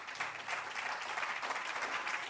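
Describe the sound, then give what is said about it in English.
Audience applause at a live music show: dense, continuous clapping from many hands with no pauses, steady and fairly soft throughout. “Believe me, your applause is why we're here.”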